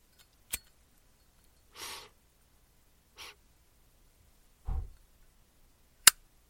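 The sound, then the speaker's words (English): A Drew Estate Tabaco Especial cigar being lit: a sharp lighter click, a few soft breathy puffs spaced apart, then a final crisp click, all fairly quiet. “So I'm going to tell you right now, Tabaco Especial by Drew Estates is what I'm smoking this week. Let me light her up.”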